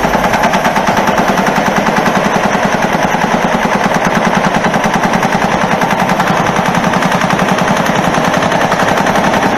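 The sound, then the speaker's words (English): Rapid machine-gun fire from a mass shooting in Las Vegas, about 110 rounds in roughly 15 seconds, forms a loud, unbroken rattle of fast, evenly spaced shots that never pauses. “here is some live footage of what it sounded like when he started cranking off the rounds. This is 110 rounds in about 15 seconds.”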